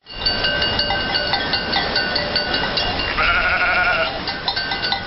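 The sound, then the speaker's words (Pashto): A herd of sheep and goats driven along by nomads with camels, with many overlapping bleats and clanking bells. The sound is continuous and loud throughout. “اوښانې په لوښوبار د میږه وزو رمې تر مخ کړي”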